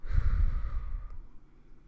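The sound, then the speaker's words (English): A deep breath in and out, heard as one long, airy rush of breath with no talking. It is loud at first and then fades away. “Let's take a deep breath. And out.”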